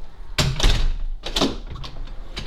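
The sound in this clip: A door being closed: a few dull thuds and knocks, with two clusters of impacts and lighter taps after, over a low rumble.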